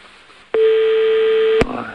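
A telephone tone sounds after a call is hung up: one steady mid-pitched tone lasting about a second, then cut off by a sharp click, with faint line hiss before and after.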